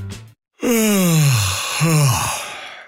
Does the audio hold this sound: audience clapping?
no

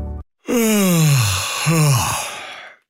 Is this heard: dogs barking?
no

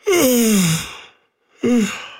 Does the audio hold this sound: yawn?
yes

